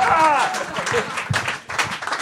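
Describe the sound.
Audience applause and cheering for a live piano performance, with people rising to their feet, a dense crackle of clapping under a speaking voice.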